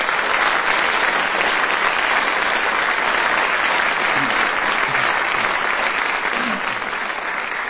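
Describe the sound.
Studio audience applause welcoming four panellists onto a comedy panel game: loud, sustained clapping from a large crowd that stays level almost throughout and eases slightly near the end.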